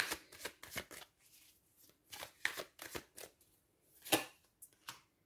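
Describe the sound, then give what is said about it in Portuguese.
Tarot cards being shuffled before three are drawn for a reading: many quick, faint riffling and slapping bursts in irregular clusters, with short pauses between them. “Vamos tirar aqui só três cartas e vamos finalizar esta leitura aqui uh, de escorpião.”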